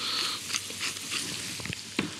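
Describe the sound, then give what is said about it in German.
Ground pepper toasts in melted butter in a hot pan, giving a faint, steady sizzling hiss broken by a few small crackling pops. “Pfeffer gebe ich jetzt schon hier mit dazu, damit er durch die Hitze noch ein bisschen mitrösten kann.”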